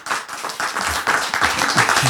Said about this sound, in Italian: Un applauso per Manu.